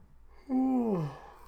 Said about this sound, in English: fourth yawn, wow.